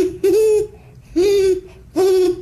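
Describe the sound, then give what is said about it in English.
A person imitates a great horned owl with three deep, hollow hoots, each a sustained low tone with a slight rise, evenly spaced about a second apart and fairly loud. “And what about the owl you mentioned? The great horned owl?”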